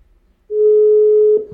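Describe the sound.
A single ring of an outgoing telephone call: one steady, loud, mid-pitched tone lasting just under a second, starting after near silence and ending with a soft click.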